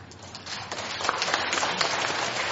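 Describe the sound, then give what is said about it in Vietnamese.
Audience applause from women at a talk, a dense crackle of many hands clapping that swells slightly and then holds fairly loud and steady to the end. “Mấy chị vỗ tay quá trời á”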